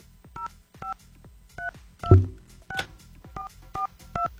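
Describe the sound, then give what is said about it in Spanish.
Touch-tone keypad beeps as a phone number is dialed for a phone-in giveaway call. Around eight short dual-tone beeps come at uneven intervals, with a dull thump partway through. “Vamos a ver si nos contesta. Vamos a marcar.”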